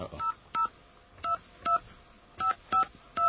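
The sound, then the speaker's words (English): Touch-tone telephone keys pressed to call an operator: a quick, uneven series of short two-note beeps with brief gaps between them, fairly faint, with no voices. “this sound here means that we're ready to call our AT&T operator with a question.”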